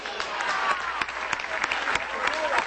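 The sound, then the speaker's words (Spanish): Applause from a crowd at an official gathering honouring presidential councils of Miranda state in Venezuela: dense, steady clapping that holds an even loudness throughout with small bursts of sharper claps. “Un aplauso a los consejos presidenciales del Estado Bolivariano de Miranda.”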